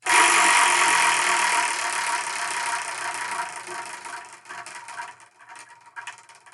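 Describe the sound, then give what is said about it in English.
Prize wheel spinning: a dense, loud whirring rattle that gradually fades and thins into a few scattered ticks as the wheel slows, with no voices. “So let's spin and see what we're going to review.”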